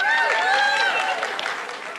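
A live show audience in Chappaqua, NY, applauds. Steady, dense clapping runs throughout, with whoops and cheers rising over it.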